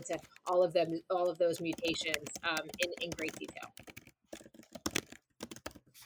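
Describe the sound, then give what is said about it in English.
Typing on a computer keyboard: scattered clicking keystrokes under a person speaking, then quicker bursts of clicks once the talking stops. “I thought I was muted as I was trying to type down the name of that presentation.”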